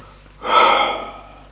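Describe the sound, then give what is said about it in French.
A single deep breath drawn in sharply, swelling quickly and then easing off into a fading, airy exhale, heard alone with no talking. “Respire un bon coup”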